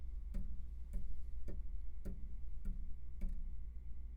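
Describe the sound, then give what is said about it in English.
Crisp ticks from tapping on a microphone boom arm holding an Avantone Pro CV-12 tube mic in its shock mount. Six short, evenly spaced knocks sound alone over a faint, constant low hum. “And I'll tap on the boom arm.”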